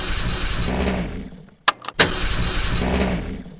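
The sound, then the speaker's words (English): Engine rumble from a tracked vehicle with two steering levers and a four-speed automatic transmission. It drones steadily, drops out briefly, gives a couple of sharp mechanical clicks, then returns to the same loud rumble. “Two levers, one for steering and braking each track. An automatic tranny with four forward speeds, neutral and reverse. Here's the ignition.”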